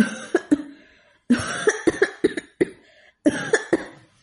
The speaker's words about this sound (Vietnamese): Đang nói, y lại bắt đầu ho khan dữ dội.